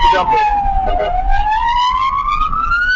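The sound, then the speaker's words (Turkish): An ambulance siren sounds in traffic in Büyükçekmece while a pickup truck blocks its way. A single loud wailing tone dips slightly, then climbs steadily in pitch, over low road rumble. “Büyükçekmece'de bir sürücü ambulansın geçmesine engel oldu. Kamyonetteki şahıs siren ve korna uyarılarına rağmen bir türlü kenara çekilmedi.”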